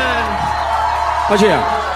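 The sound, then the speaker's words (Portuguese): Audience applause and cheering as a round of clapping is called for. A steady wash of crowd noise rises briefly where a loud voice gives a falling whoop. “Salve de palmas. Pode ir.”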